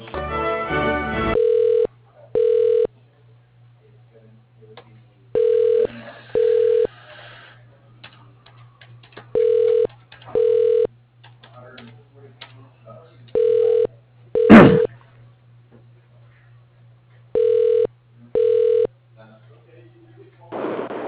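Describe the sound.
A telephone line rings while a call is being transferred: five double-pulse ring tones at a steady mid pitch repeat every few seconds over a low constant hum, with a short sharp burst among them.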